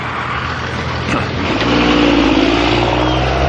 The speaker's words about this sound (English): Two diesel pickups going in opposite directions.